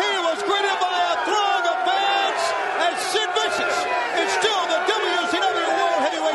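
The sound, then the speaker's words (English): Wrestling fans cheer as a world champion wrestler arrives at the O'Connell Center in Gainesville, Florida. The crowd keeps up a loud, continuous mix of whoops, yells and excited shouting, with overlapping voices throughout. “Sid is shown walking through a crowd of cheering fans arriving at the building.”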